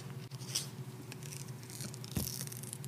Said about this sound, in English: I'm peeling off the back sticker now.